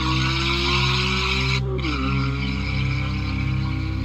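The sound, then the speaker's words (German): A rear-wheel-drive sports car with stability control switched off accelerates hard and drifts on a wet road. Its loud, sustained engine roar climbs in pitch, drops abruptly midway, then holds steady over a constant tire hiss. “Er schaltet zum Beispiel auf sportlich dynamische Fahrweise, er schaltet Stabilitätskontrollen aus und den Heckantrieb ein. Mit dem kann er nämlich driften. Und obwohl die Straße nass ist, beschleunigt er sein Boliden mehrmals massiv.”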